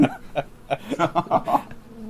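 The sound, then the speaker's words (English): Bee buzzing in a video game, a quick run of many short, warbling, chattering buzz bursts at moderate loudness. “Why does this bee not have the authority to give me honey?”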